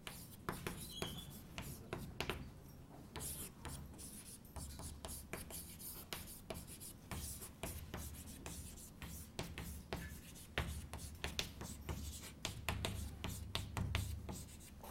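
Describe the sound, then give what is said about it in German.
Handwriting an email address: faint, scratchy writing strokes in many short bursts with brief pauses between them, continuing steadily without talk. “Und wenn Sie mich erreichen wollen, schreibe ich Ihnen gleich mal noch meine E-Mail-Adresse auf.”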